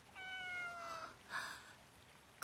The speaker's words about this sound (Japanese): あなた、どこから入ってきたの？どこかの貴族の飼い猫かしらね。ご主人様のところから逃げてきたの？